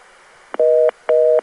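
A telephone reorder tone plays after an intercept announcement on a New York switch. A brief click comes first, then two even, loud dual-tone beeps in a quick on-off rhythm.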